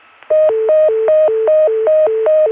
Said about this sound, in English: Now, we were just hearing the deedle from Richmond, which sounds like this.